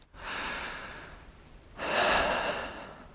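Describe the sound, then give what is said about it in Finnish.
Deep breathing: two long, airy breaths, a steady inhale-like rush followed after a pause by a louder, fuller breath, with no talk. “Ja hengitä syvään. Kuka sä oot? Hengitä nyt vaan.”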